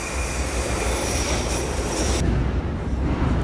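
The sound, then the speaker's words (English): A London Underground Northern Line train running between Euston and Leicester Square makes a steady, loud rumble with whining wheel tones and bright hiss. The upper hiss cuts off abruptly partway through while the low roar carries on. “I've just got on the Northern Line at Euston and I'm heading to Leicester Square.”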